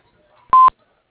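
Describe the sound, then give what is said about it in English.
A voicemail beep sounds before a message is left: one short, steady electronic tone, fairly loud, with silence on either side. “Please leave your message after the tone, and your call will be returned as soon as possible.”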